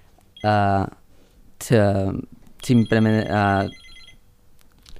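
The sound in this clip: A telephone rings with an incoming call, sounding in three tonal bursts of bright, rich harmonics separated by short gaps, moderately loud.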